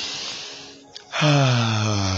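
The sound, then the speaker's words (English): A deep breath, an airy rush lasting under a second that fades to a brief pause before a voice starts speaking. “let me take that deep breath again”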